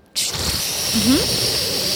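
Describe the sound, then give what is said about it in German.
A person vocally imitates a toilet cistern flushing after its push button is pressed: a sustained breathy hiss lasting about two seconds, with a brief low voiced glide in the middle. “Es gibt ja eine Toilettenspülung mit so einem Spülkasten. Ja. Da drückt man auf den Taster und dann macht es so.”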